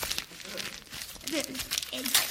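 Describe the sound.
Paper crinkles and rustles as a parcel holding a birthday present from a sports shop is unwrapped, with soft crumpling bursts under people talking.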